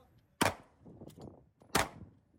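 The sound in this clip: Gunfire during shooting drills aboard a navy ship: two loud, sharp bangs about a second apart, with rumbling noise between them and a short tail after each shot.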